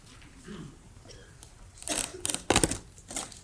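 Plastic packaging crinkles and tears as a set of tapes is unwrapped. Faint rustling gives way to several louder bursts of crackling and ripping, then it settles again.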